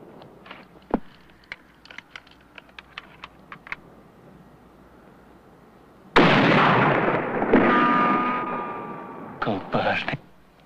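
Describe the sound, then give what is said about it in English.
A distant rifle shot and its bullet striking the dust arrive as a sudden loud blast with a rough roar lasting a few seconds, then a couple of shorter bursts. Before the blast, a run of light, scattered clicks sounds alone. “A bullet from the distant rifleman hits the dust, only inches from Charmer.”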